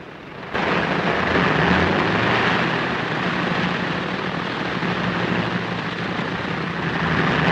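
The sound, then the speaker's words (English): A line of propeller planes revs up and sets off down a runway one after another. A loud, dense engine roar starts abruptly and then holds steady and constant. “Behind him, the line of planes rev up their propellers and start to move off after him. One by one, the planes set off down the runway.”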